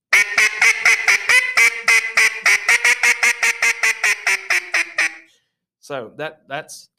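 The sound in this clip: Quacks from a hybrid duck call blown straight into a microphone: a long, rapid run of many evenly spaced, nasal quacks, then a brief pause and a few lower, drawn-out notes.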